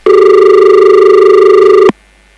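A phone call rings without connecting: one steady, loud, buzzing ring tone lasts nearly two seconds, then cuts off abruptly into silence.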